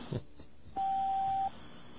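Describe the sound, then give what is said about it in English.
Voicemail beep tone on an FBI tip line: after a faint click, one steady mid-pitched electronic beep sounds alone for under a second, then cuts off into quiet line hiss. “Okay, I disconnected it, but the reason I left the tone on was because sometimes I can identify what kind of machine they use or what kind of voicemail system.”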